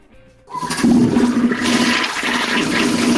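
A toilet flushes: a quiet moment, then a sudden loud rush of swirling water that keeps roaring and gurgling steadily to the end.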